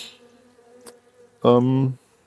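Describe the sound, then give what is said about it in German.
Honeybees buzzing at the brood nest during a spring hive inspection, gentle bees tending the comb; one loud, steady buzz lasts about half a second over a faint background hum. “Pollen am Brutnest, emsige Bienen, die da alles versorgen, sanftmütig, keine hat mich gestochen”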